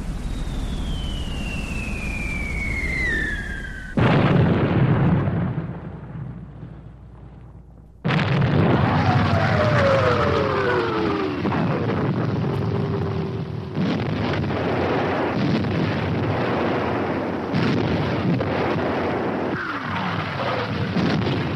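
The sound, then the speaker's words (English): Heavy blasts of a wartime bombardment during the June 6 Normandy invasion: descending shell whistles cut through roaring, wind-buffeted bursts, with loud booming segments that start and stop abruptly across a sustained rumble. “And then the bombardment started.”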